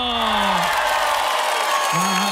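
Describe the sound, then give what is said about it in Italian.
Audience applause and cheering for a dance troupe: a dense, steady wash of clapping and crowd noise that stays loud throughout, with a couple of drawn-out vocal whoops rising above it. “salutare e fare un applauso per il corpo di ballo.”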